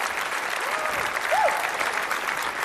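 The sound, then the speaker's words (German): Applause from a stage competition audience, given after a score of 34 points is announced; steady, dense clapping throughout, with a few faint whistles or voices near the start and middle. “34 Punkte, einen Applaus dafür bitte.”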